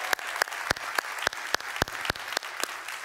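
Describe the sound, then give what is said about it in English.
Applause from an Easter Sunday church audience welcoming online viewers: steady, fairly sparse clapping with distinct sharp claps standing out at a regular pace and staying at an even moderate level throughout. “Hey, can we make some noise and welcome the online audience today? Come on, let's welcome them in.”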